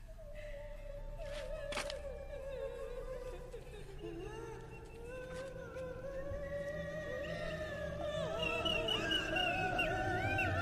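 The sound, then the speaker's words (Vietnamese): An eerie wailing cry echoes through a forest, a drawn-out moaning tone that wavers and slowly rises in pitch. It grows louder toward the end over a low rumbling bed. “Để lại đằng sau là tiếng khóc thương ghê rợn vang vọng cả khu rừng.”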